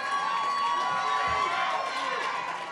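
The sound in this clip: Excited audience cheering and shouting, a dense, steady roar of many voices with whoops mixed in, staying loud from start to finish.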